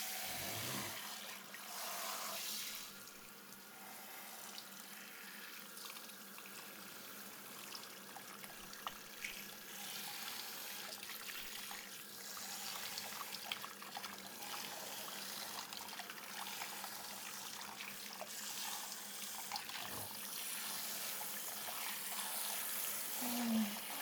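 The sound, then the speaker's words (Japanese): Hot water runs to rinse hair treatment off the scalp, a faint continuous trickling hiss that flows steadily without clear breaks. “頭皮にトリートメントが残ってしまうと毛穴に詰まってしまうこともあるので、こうしてお湯をためて洗い流します。”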